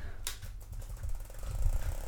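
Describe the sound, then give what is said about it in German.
Whirring, rattling mechanical noise from an electric fan held right against the microphone, a continuous low rumble with clattering buzz that grows slightly louder toward the end, no voices. “Digga, du kannst den Ventilator doch nicht ins Mikro stecken. Mach den wieder aus. Mach ihn wieder aus!”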